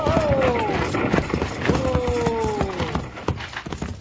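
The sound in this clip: Runaway horses gallop while pulling a wagon toward a bend. Fast, uneven hoof clatter runs throughout, with drawn-out tonal cries rising above it twice.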